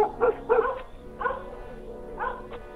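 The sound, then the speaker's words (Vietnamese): Dogs barking outside a house: a few short, sharp barks come in separate bursts, some closely doubled and others spaced apart, moderately loud over a quiet background. “bỗng đâu chó lại sủa râm ran ở ngoài nhà”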